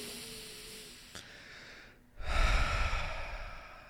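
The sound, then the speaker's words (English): A deep breath taken as a calming exercise: a soft, airy inhale, a short silent pause, then a heavier, louder exhale with a low rush of air that trails off slowly. “let's just take a collective deep breath together”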